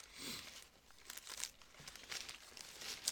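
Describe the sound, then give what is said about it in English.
A burrito ripped in half in its wrapper gives faint, irregular crinkling and tearing crackles, sounding alone without voices. “I'm going to rip this burrito in half.”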